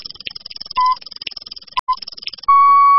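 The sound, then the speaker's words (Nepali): A noon time-check signal on an FM radio station gives a few short, clear mid-pitched beeps, then a longer steady beep at the end, over a rapid, rhythmic high-pitched ticking. “Shukla Gandaki FM 97.6 Shukla Gandaki time check”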